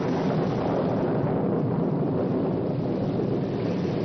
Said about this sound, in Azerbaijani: Subtropik bölgənin adəti üzrə göy gürültüsü və sanki heç vaxt kəsməyəcək yağışı